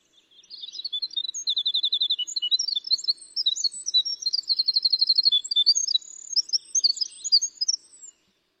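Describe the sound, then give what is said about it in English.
A winter wren sings its flute-like song: a long, high, rapid cascade of bright trills and twittering notes that runs almost unbroken for about eight seconds, clear and alone. “Let's let everybody listen to this beautiful flute-like sound of the winter wren.”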